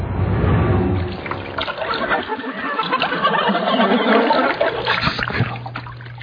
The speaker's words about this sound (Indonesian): Aku segera mengambil air wudhu untuk sembahyang.